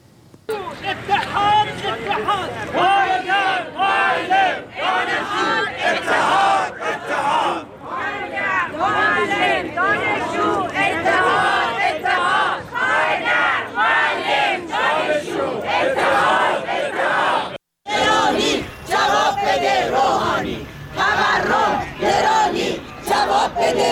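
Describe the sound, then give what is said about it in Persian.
Crowd of teachers from Alborz and Kermanshah provinces chanting loud, forceful slogans in unison at a rally protesting their living conditions. The massed shouting continues almost without pause, with one brief break near the end. “اما گروهی از فرهنگیان استان البرز و کرمانشاه هم این هفته در اعتراض به وضع موجود و وضعیت معیشتی خودشون دست به تجمع اعتراضی زدند که صحنه‌هایی از این تجمعات رو با هم می‌بینیم و می‌شنویم.”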